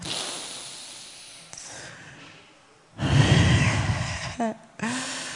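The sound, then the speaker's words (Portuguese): People draw deep breaths together during guided prayer at a worship gathering. Faint breathy noise gives way to a long, loud hissing inhale, and brief voiced sounds follow. “Ah, respira de novo mais fundo.”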